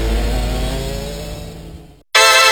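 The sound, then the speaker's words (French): A bioethanol-fuelled go-kart engine revs on a racing track: a steady, buzzing, mid-pitched drone that gradually eases, breaks off briefly, then returns abruptly and loud. “Prenez le volant des kartings fonctionnant au bioéthanol. À fond dans la ligne droite.”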